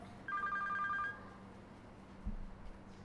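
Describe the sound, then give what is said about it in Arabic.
Telephone ringing during a lesson: a single short burst of warbling electronic ring, fairly faint and high-pitched, that stops after under a second, followed by quiet room hum and a soft thump. “اللي معاه تليفون يعملوا صامت، ده بالأمر. ممنوع الرد على التليفون في الدرس”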